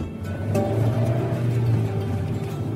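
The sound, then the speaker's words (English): A car is driving, heard as a steady low engine hum and road noise that stays even and moderately loud throughout. “I left the theater and started driving towards Osceola.”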